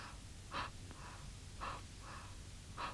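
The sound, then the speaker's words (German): Soft, faint breathing on a quiet night, with three slow, evenly spaced breaths standing out over a low background hiss and weaker breaths between them. “Psst. Hörst du sie atmen? So atmen?”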